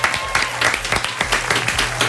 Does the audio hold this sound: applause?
yes